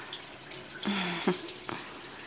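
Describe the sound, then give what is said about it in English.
Shower head spraying water to rinse someone off: a steady, soft hiss of running water at a fairly low level throughout. “Let me get this shower head. And rinse you off.”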